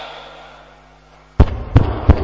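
Three sharp, loud knocks on a door, evenly spaced, come after a quiet stretch of low steady hum. No voices are heard.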